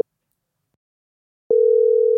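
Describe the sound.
A telephone line tone plays while a call is placed. A faint click comes first, then silence, then a steady, pure single-pitched tone begins and holds unbroken to the end.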